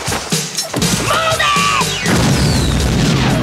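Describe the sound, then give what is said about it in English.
A thrown grenade explodes with a loud, heavy boom. A broad, rumbling roar follows and continues to the end. “I want you to drop the pin, throw the grenade.”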